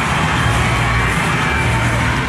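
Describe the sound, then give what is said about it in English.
A baseball crowd at First Horizon Park in Nashville cheers a home run in a Banana Ball game, with a dense, loud and steady roar of many voices that holds without a break. “Oh yeah, baby, the crowd in Nashville, First Horizon Park, going nuts this weekend.”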